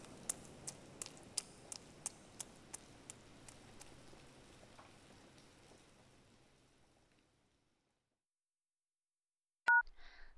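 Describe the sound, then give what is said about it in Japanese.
A telephone being dialed and ringing: a quick, even run of about eleven sharp dialing beeps over a faint hiss that fades away, then silence, then one short, loud ring tone near the end. “もしもし、先輩ですか？先輩にかけてるんだから先輩が出るのは当たり前か。”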